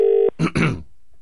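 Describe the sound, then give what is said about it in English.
A telephone dialing a call: one steady electronic tone lasting about a quarter second, followed by a brief, noisy burst and then near silence. “Let's try and call Mark. Hang on a second.”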